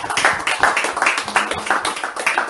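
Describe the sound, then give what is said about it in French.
Rhythmic clapping from an audience at a church worship service, loud and steady, with many hand-clap bursts falling on a regular beat. “Applaudissons encore pour le Seigneur.”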